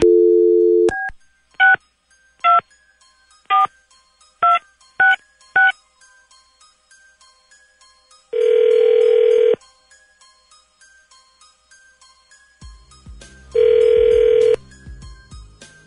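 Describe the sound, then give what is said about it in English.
Touch-tone dialing of a telephone number chosen at random: a brief low tone, then a quick run of short electronic beeps, followed by two long, steady ringing tones with a pause between them. “Dialing at random.”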